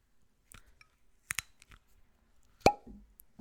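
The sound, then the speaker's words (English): A cork pulled from a bottle of light whiskey blend gives one sharp, bright pop, preceded by a few faint handling clicks and followed by a brief low rumble. “It's their blend of this light whiskey, of the barrels of this light whiskey. And I want to taste it. So let's uncork it.”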